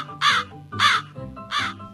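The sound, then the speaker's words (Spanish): A crow caws three times, each harsh, raspy call loud and evenly spaced with short gaps between. “Estaban un grupo de pastores descansando después de haber comido, cuando un cuervo consiguió acercarse y robar un buen trozo de carne que había sobrado a los hombres.”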